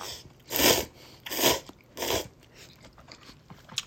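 Eating Nissin Nakiryu dandan instant noodles with firm, slightly stiff strands, giving three loud slurping bursts in steady succession, followed by quieter chewing and small crackly mouth sounds.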